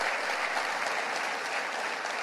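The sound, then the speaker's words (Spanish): A church audience applauds God during a service. The clapping is loud, even and unbroken, a dense wash of hands with no voices standing out. “Dale un aplauso a nuestro Dios, que es nuestro pastor.”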